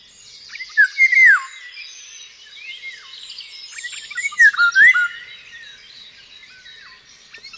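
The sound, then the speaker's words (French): Eurasian golden oriole song: two loud, liquid, fluting whistled phrases separated by a long pause, with faint high chirping or insect-like buzzing continuing throughout. “Ah, c'est le loriot d'Europe.”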